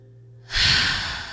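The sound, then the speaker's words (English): A deep breath drawn in during a calming, guided relaxation moment: silence, then a single long airy inhale that swells in loudness and stays broad and breathy to the end. “Take a breath, inhale. Take another one.”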